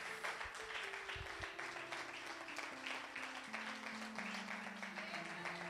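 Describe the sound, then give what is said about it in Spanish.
An audience applauds the Lord during a church sermon. The clapping is a faint, dense, continuous patter over sustained keyboard notes. “¿Cuántos le dan un aplauso al Señor?”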